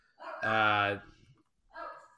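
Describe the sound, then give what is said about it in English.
Dogs barking in two bursts: a long, loud, harmonic bark or yelp, then after a short pause a briefer, fainter one. “Sorry about the dogs.”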